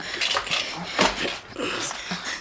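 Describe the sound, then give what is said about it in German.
Soft breathy sounds from an Irish setter dog, a few short bursts of wheezing and whimpering at a moderate level, with no words spoken. “Das ist ein irischer Setter. Das muss der Hund von Mr. Allen sein.”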